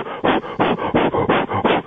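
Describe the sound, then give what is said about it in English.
A voice imitates a golfer's loud, heavy breathing with a rapid run of strong, rhythmic, breathy huffs. The pulses repeat evenly and loudly, with no other sound. “He breathes so loud. You can't pick this up on TV. You pick up his movement. But he is, I'll try to do my best imitation.”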